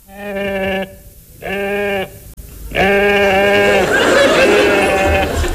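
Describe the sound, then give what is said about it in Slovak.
A ram bleats three times, each a long, wavering, nasal cry, and the third runs into a burst of rough, noisy sound. “Ten diviak tuším blačí. Čo si to? Veď je to barán.”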